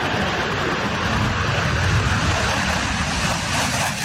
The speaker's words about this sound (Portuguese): Assim que o alerta é emitido, o F-39 decola em poucos minutos da base aérea de Anápolis, em Goiás, cidade a cerca de 150 quilômetros de Brasília.